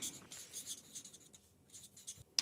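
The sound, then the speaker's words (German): A pen writes on a small slip of paper, producing soft scratchy strokes in short bursts with brief pauses, ending in a sharper tap, with no talking. “Du hast einen Zettel, ich habe einen Stift für so ein Kurzteam. Na, Wahnsinn. Okay, dann schreibe ich zuerst.”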